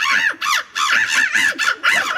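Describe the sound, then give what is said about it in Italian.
Human voices imitate bird calls at a bird-call imitation tournament, producing loud, nasal, honking goose-like squawks repeated in quick bursts with brief gaps, with no ordinary speech. “Ah, sono persone. Sono persone che imitano gli uccelli.”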